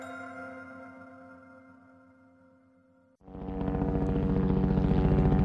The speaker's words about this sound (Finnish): Helikopteri lentää matalalla ja aiheuttaa jonkin verran melua.